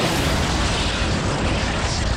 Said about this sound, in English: Oh, dear. There goes the missile. What have I done?